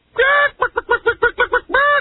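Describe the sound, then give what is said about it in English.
Chicken clucking sound effect: a drawn-out squawk, then a rapid run of seven short, even clucks, ending on another drawn-out squawk, loud and alone. “Chicken!”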